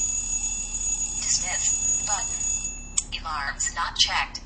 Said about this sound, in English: Oh, there it is. Okay, there's the alarm.